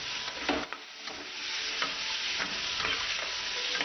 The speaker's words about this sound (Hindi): अब हमने इसमें ब्राउन प्याज हो चुकी है और ये मटन डाला। इसको थोड़ा सा इस तरीके से भून लिया,